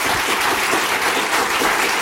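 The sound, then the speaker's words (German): Audience applause at a live question-and-answer show, an even wash of many hands clapping at steady volume from start to end. “Applaudieren Sie auch für den Mann, ohne den ich jetzt nicht hier wäre, Felix Lobrecht.”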